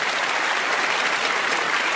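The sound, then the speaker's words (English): Audience applause welcoming a guest onto a show: dense, even clapping from a crowd, loud and sustained throughout without a break. “Let's give a big hand to Julie Zeman.”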